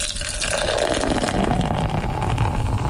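Beer pours from a tap into a glass, a continuous rushing, foamy hiss of liquid that stays fairly loud and even for the whole few seconds.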